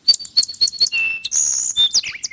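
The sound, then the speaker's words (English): Sparrows chirp in a backyard: a quick run of high, bright tweets mixed with a few longer whistled notes, clear and alone. “That's the sound of the sparrows in my backyard.”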